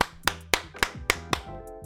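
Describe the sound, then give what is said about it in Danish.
Hands clap as applause in six sharp, evenly spaced claps with a steady rhythm, heard alone without voices. “Du begynte å klappe. Jeg likte det, jeg likte det.”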